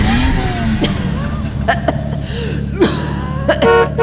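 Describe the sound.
Car horn honking as a driver arrives: a few short, bright toots sound near the end over a low engine hum, with scattered thumps and a brief voice-like noise earlier.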